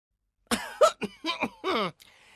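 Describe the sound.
A voice clears its throat before speaking, a quick run of short, rough hacks and hems that ends in a longer voiced rasp, fairly quiet and heard alone with no talk around it.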